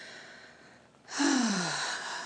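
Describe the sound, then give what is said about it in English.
A deep breath drawn in during a guided prayer, a breathy, airy inhalation that swells suddenly after a quieter stretch and trails off slowly, with no talking over it. “Yes, and take that breath of love and gratitude together.”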